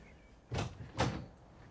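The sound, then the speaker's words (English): A bar's door being opened: two short, fairly faint thuds about half a second apart stand out from the quiet, with no talk. “Why is the door of the Flood Bar shut? Oh, I really can't imagine. Let's open it and see.”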